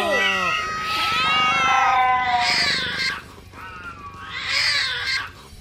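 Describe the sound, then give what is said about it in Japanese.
Cats fighting and yowling, with loud, drawn-out cries that slide up and down in pitch and overlap almost without a break, and two bursts of sharper, higher screeches in the second half. “魔女には勝てないが、同じ猫なら倒せる。みんな、戦え！”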